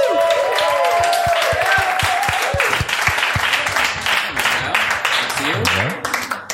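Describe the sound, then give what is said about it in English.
Applause from the audience welcoming a guest onto the stage at a live improv comedy show in Bristol: dense, steady clapping that holds for several seconds and then thins toward the end, with a voice briefly heard at the start. “give it up first for John McInnes.”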